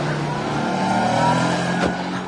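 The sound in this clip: A car's engine accelerates away as a loud, steady roar with a low hum running underneath, easing off slightly near the end.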